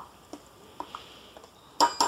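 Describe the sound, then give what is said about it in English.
A spoon stirs vanilla yogurt and scoops it into a measuring cup, giving a few soft, scattered taps and scrapes, then two louder, bright clinks at the end. No one talks. “Now I'm going to stir up this vanilla yogurt and put a cup of that into the measuring cup so that I know I have the right amount.”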